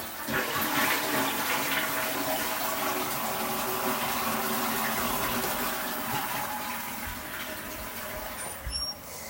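A toilet flushes with a steady, loud rush of water that runs almost the whole clip, easing slightly toward the end with a brief gurgle.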